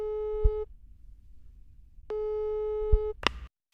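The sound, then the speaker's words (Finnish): A telephone ringing tone on an outgoing call: two steady, buzzy, mid-pitched tone bursts separated by a silent gap, followed by a short click at the end. “Soitetaan pappalle ja pyydetään sitä järkkäämään tapaaminen Luomajoen Hannun kanssa.”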